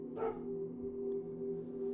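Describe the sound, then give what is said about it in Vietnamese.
A single distant dog bark rings out near the start at night, faint against a steady low hum that continues alone afterward. “lâu lâu có một tiếng chó sủa vọng lại ở tuốt đằng xa”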